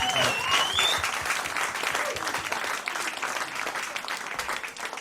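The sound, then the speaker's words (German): A crowd at a lively German live show applauds itself with thick, continuous clapping. The applause starts loud and eases down only slightly over a few seconds, staying dense throughout. “Applaus für euch. Applaus für euch selbst.”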